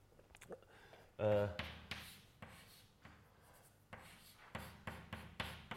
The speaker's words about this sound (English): But first I write down the equation.